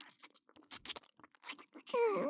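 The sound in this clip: Wet licking and slurping mouth sounds come as a string of soft, irregular smacks and slurps, and end with a short voiced sound.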